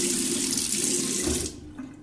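Water runs from a tap in a steady, full hiss that cuts off abruptly about two-thirds of the way through, leaving only a faint low background.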